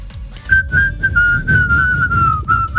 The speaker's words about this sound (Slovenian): Jaz nisem vedela, da on tako dobro žvižga. Ja, res je dobro. Čeprav je zelo čuden, ampak dobro. Ful visok zna žvižga.